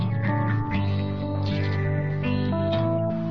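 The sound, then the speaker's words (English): A heavy reverb effect on loud, sustained harmonic tones that shift in pitch now and then, with each note smearing into the next in a continuous wash. “Sisyphean reverb.”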